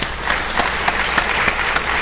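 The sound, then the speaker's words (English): Applause for speakers after short presentations at a conference session: a thin patter of clapping with regular sharper peaks at a moderate, steady level. “let's give all of our speakers a round of applause.”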